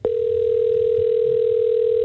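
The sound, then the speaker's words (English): A telephone dial tone plays while a call is being placed. It is a single steady, mid-pitched hum that switches on abruptly, holds at an even loudness for about two seconds, then cuts off, with no voices. “So, hey, let's give our caller, give our winner a call, I should say.”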